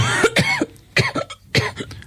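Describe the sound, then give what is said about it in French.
A woman lying under blankets in a cabin coughs several times in quick, harsh bursts, split into a few separate fits with short pauses between them. “Mary, toujours dans la cabine, sous les couvertures. Elle tousse.”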